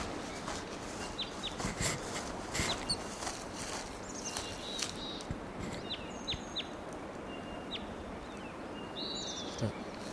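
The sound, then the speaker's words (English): Calls of a wild bird perched at the top of a tall tree: a few short, high chirps scattered through steady background noise. “Approaching that wild bird. He's perched up on the top of a tall tree.”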